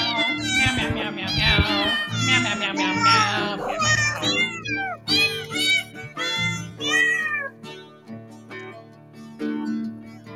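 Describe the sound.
Cats meow a Christmas carol melody, many pitched, wavering meows following one another in a tuneful sequence with short gaps between phrases.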